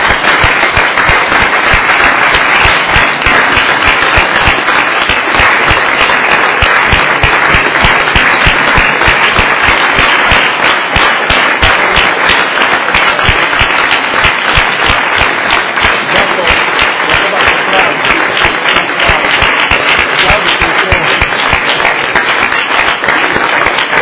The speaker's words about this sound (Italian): Ecco, io chiedo di fare un applauso.